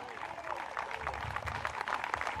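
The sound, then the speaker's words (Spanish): Church audience clapping in praise, a quiet, rhythmic patter of many hands mixed with voices, steady and soft throughout. “Dele fuerte ese aplauso al Señor en esta hora,”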